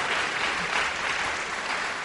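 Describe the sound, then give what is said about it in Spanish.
Steady applause from an audience at a church gathering, dense and even throughout the short stretch with no pauses. “Aplauso para Trigo, ha estado presente.”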